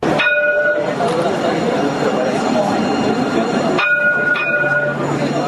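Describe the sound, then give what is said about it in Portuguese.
A new electric light rail tram runs on its tracks in Rio de Janeiro with a steady, loud rumble. High tonal squeals or horn tones sound at the start and again near the end. “Esse é o máximo de barulho que o novo veículo leve sobre trilhos carioca faz.”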